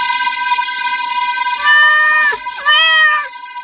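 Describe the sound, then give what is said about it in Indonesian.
A cat meows twice during a neighborhood night patrol. Both cries are drawn-out and wavering, one after the other with a brief gap, over a steady tonal background. “Tenang, hanya kucing kok.”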